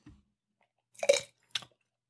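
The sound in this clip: A wet sip of a sour, turned Trout River Rainbow Red Ale: a faint brief noise, then a louder slurping gulp and a short second sip, with no talk.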